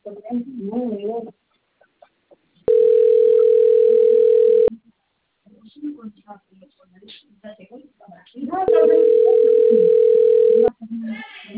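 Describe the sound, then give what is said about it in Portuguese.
A telephone line tone sounds as a call comes in: two long, steady, even-pitched tones of about two seconds each, separated by a gap, with people talking before, between and after them. “chegou a ligação aqui”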